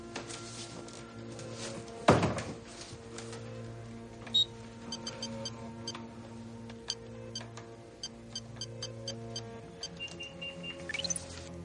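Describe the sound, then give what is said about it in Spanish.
An office door shuts with one sharp thud, then a keypad code is entered to lock it: scattered light clicks and faint beeps over a low steady hum. “cierra la puerta del despacho y activa una clave para bloquearla en un panel”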